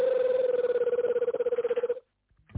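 A telephone ringing: one rapid, buzzing trill that pulses evenly for about two seconds, then cuts off into near silence.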